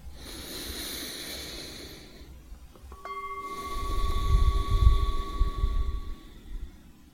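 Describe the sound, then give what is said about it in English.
A person takes a slow, deep breath in and lets it out, a soft airy hiss followed by a longer, fuller exhale, with a faint sustained tone in the background. “let's take a nice and deep breath.”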